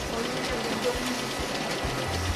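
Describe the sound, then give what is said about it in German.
Printers and copiers run in a copy shop, giving a steady mechanical hum with regular low, rhythmic thumps that repeat throughout. Faint voices sit underneath. “Von morgens 8 bis abends um 20 Uhr wird hier kopiert, gedruckt, gebunden.”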